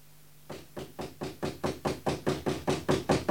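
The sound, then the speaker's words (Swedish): Knocking on a house door at night: many rapid, evenly spaced knocks in a steady rhythm, moderately loud, starting after a short quiet moment and continuing to the end. “Vad är det för något? Det är någon på dörren.”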